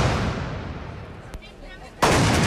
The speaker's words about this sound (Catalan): És el so dels trabucaires que, al costat de les gralles, han despertat la ciutat.